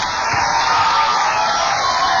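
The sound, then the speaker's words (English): Audience applause and cheering as a rock band returns to the stage for a live club show in Palo Alto: a dense, steady roar of clapping and shouts, loud and unbroken throughout, with no voice standing out. “The applause means they're coming up the stage.”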